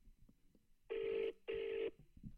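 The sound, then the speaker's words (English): A telephone ringing out on an outgoing call: two buzzing rings in quick succession, fairly faint, with soft scattered background noises before and after. “Pass me phone. I'll ring her.”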